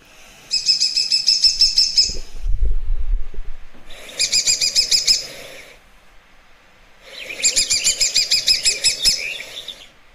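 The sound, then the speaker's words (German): A woodpecker call comes in three bursts of rapid, high-pitched chattering notes, each lasting about one to two seconds and separated by short pauses. A brief low rumble sits between the first two bursts. “Ja, es ist auch wieder, finde ich, vom Laut her typisch Specht, ja. Aber höher, ja.”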